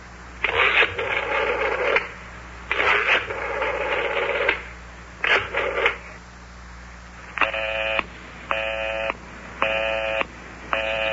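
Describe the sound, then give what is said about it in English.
A telephone busy signal sounds after a number is redialed: three longer, rough buzzing bursts, then four short, evenly spaced tones with equal gaps between them. “Listen to that. Line is still busy.”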